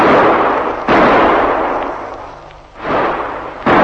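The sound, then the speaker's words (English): Gunshots fired at the edge of a roadside ditch: a few loud, harsh cracks, each trailing into a long noisy wash, spaced unevenly with no voices. “I can feel the muscles of my back crawling now when I waited for those shots. And then they came. Four of them.”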